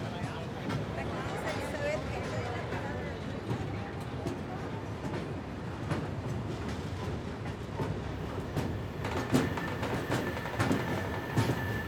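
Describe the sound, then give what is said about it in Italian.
A regional passenger train arrives at a platform of a small coastal station in Manarola, Italy, with a continuous rumbling clatter of wheels and brief metallic squeals near the end. Voices can be heard under the train noise. “22930 di Trenitalia, proveniente dalla Spezia Centrale e diretto a Levanto, delle ore 15.06, è in arrivo al binario 2.”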